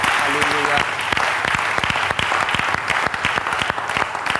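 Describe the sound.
An audience applauding during a church service: many sharp, dense claps blending into steady, lively applause that continues throughout.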